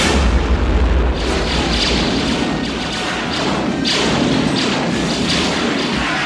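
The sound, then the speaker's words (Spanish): An elevator door bursts open under blaster fire, a loud, dense roar of noise with heavy booming thuds that carries on steadily without a break. “Han y Chewbacca dirigen sus armas contra el ascensor, cuya puerta estalla dando paso a los soldados.”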